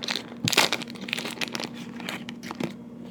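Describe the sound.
A wrapper on a Kagoshima sweet potato cake crinkles and rustles as it is unwrapped for eating, giving a quick string of crisp, papery crackles and crunches with a few sharper snaps.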